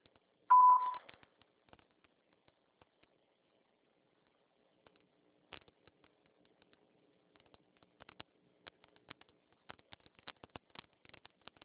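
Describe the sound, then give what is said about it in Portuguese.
A single short voicemail beep marks the start of recording, a brief mid-pitched tone followed by near silence with faint scattered clicks. “Sua chamada está sendo encaminhada para a caixa de mensagens e para a sujeita cobrança após o sinal. Após o sinal, dá-me sua mensagem.”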